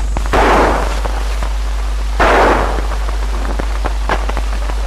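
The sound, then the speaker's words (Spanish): Two gunshots from a .45 pistol fired by a policeman during street unrest. Each is a loud, sharp crack with a lingering noisy tail, about two seconds apart, followed by faint scattered crackle. “Observamos a un policía que tira con una pistola 45.”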